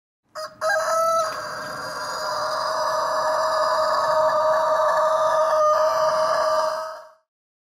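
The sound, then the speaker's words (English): A rooster crows. Two short clipped notes lead into one long, loud, steady crow that holds for several seconds before cutting off. “Rooster.”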